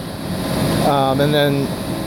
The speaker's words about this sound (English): pump over our wasted activated sludge from the aeration areas over to this area. And the centrifuge spins it and thickens it to a consistency of about 6.5 to 7.5% solid.